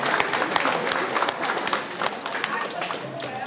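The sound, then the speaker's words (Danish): Audience applause for a birthday, with dense, steady clapping that holds at an even level throughout and some voices mixed in. “var op til flere af jer, der opfattede, at Ulla har fødselsdag i dag. Skal vi give en hånd til?”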